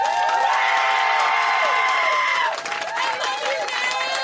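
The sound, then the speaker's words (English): A studio audience cheers and applauds to welcome a comedian onto a show, a loud, unbroken roar with whoops and high shouts running throughout. “Put your hands together for the incredible comedian Nish Kumar.”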